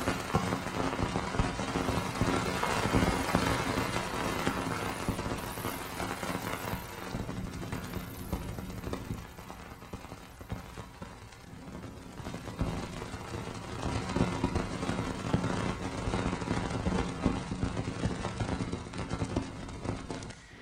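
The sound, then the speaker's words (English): A sonified signal from the space probe Cassini as it passes through Saturn's ice rings: a dense, continuous crackling hiss for about twenty seconds, with gentle swells and dips in loudness. “This is the space probe Cassini, pirouetting through the ice rings of Saturn.”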